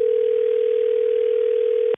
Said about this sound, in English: Let's make the phone call then.